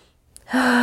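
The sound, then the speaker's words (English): A big deep breath taken during an emotional tapping exercise: one sharp inhale that begins abruptly about halfway through and stays loud and steady to the end. “Big deep breath.”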